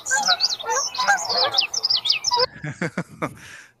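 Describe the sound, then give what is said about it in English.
Birdsong recorded in Yellowstone plays back as rapid, bright chirps and trills from several birds. A few shorter, sharper, lower-pitched pulses follow. “I have birds, different birds from Yellowstone in here.”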